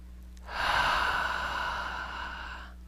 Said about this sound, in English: nice deep breath